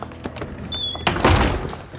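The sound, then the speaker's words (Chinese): A door is shut with a solid, dull thud, preceded by light handling noises and followed by a brief scraping rumble, with no voices. “把门关上。”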